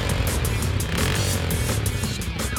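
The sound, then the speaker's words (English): Engines of a car and a motorbike in a video game street chase make a continuous, loud, dense roar with a steady rumble. It runs for the whole clip without clear breaks. “Ride down that street and chase the lead.”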